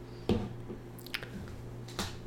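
Faint chewing of coffee-shop food, with a few soft, wet squishes and bites over a low, steady hum.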